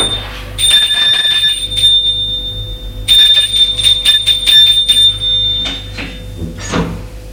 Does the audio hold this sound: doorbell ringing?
yes

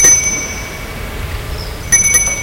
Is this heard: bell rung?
yes

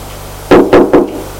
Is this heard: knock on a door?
yes

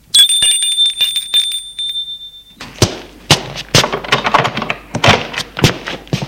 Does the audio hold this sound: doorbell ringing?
yes

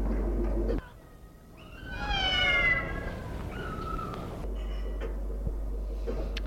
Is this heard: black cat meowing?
yes

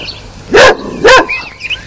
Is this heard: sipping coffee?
no

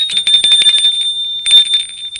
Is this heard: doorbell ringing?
yes

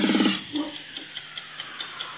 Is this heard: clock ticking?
yes

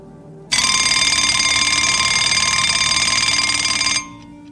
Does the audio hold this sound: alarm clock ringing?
yes

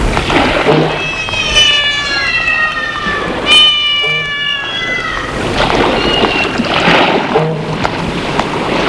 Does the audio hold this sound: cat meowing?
yes

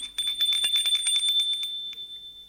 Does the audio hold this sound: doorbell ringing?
yes

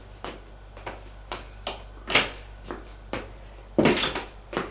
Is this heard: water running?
no

